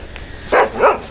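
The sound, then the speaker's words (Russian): A dog barking on the other side of a wire-mesh fence: two short, loud barks in quick succession, with nothing else heard. “По другую сторону забора из сетки появляется пес Ры.”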